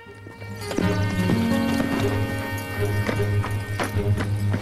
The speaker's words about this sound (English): Under a blue sky, Willie rides his horse up a hill towards a grand white wooden house.